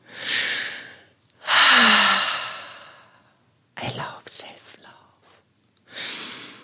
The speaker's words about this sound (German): So, jetzt mache ich noch einen tiefen Atemzug und du bitte auch.